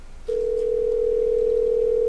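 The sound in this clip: A steady telephone tone on a call placed to reach someone's voicemail begins after a brief quiet moment and holds at one unbroken pitch, moderately loud and alone, until the end.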